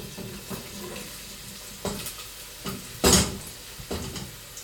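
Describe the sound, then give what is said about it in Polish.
Onion sizzling in olive oil with garlic in a pan, a steady low hiss of frying broken by a few sharp clinks and scrapes of a utensil stirring, one louder burst standing out partway through. “Teraz dosypię cebulę.”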